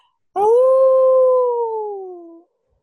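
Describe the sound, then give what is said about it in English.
A human voice imitates a distorted, wolf-like howl during a Call of Cthulhu tabletop role-playing game: one loud, sustained tone of about two seconds that holds steady, then sinks slightly lower as it fades out. “Pretty clearly, like an animal sound. Then, however, it's not. It's kind of like a wolf, but it seems a bit more distorted.”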